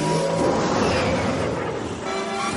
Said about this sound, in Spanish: Leia va tras la motoyet imperial. se eleva. El soldado mira hacia atrás y acelera.